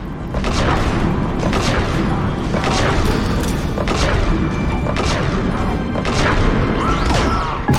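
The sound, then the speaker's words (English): A slow-firing gun in a video game lets off a regular series of heavy, booming shots, each a sharp burst rising out of constant loud rumbling game noise. “We occasionally can fire... Oh, we have a slow speed gun.”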